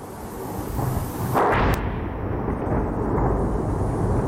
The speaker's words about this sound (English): the sound there of Russian strikes on the Ukrainian capital, Kyiv, one that's been all too familiar in the last 4 years